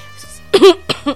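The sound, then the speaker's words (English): A short cough to clear the throat, heard as a sharp main burst followed by two smaller bursts within about a second, loud and alone with no speech. “Excuse me, I had to cough that cough out of my throat.”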